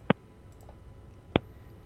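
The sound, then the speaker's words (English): Two sharp, faint clicks of a button, spaced a little over a second apart, over a quiet background hum. “And let me just, I just have to click a button here. And there we go.”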